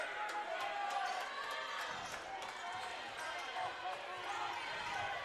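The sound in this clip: Basketball dribbling during a Handley at Montevallo varsity boys sub-regional high school game: many quick, sharp bounces in steady rhythm over constant crowd noise, with a voice talking throughout.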